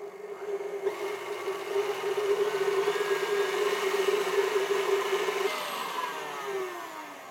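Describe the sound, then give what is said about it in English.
Steady electric mixer whirring on medium-high while whipping meringue to stiff peaks: a loud, even, humming drone that holds for several seconds, then its pitch sags and the motor winds down near the end. “Okay, so I'm gonna put my mixer on medium high and just let it go until I get some stiff peaks.”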